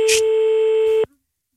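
A telephone ringing tone sounds while someone is being called: a single steady pure beep lasts about a second, then cuts off into silence.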